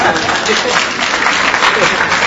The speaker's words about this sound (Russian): Спасибо. Это аплодисмент вот как раз вот этому пониманию